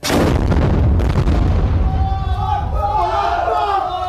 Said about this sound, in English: But there is active firing taking place today.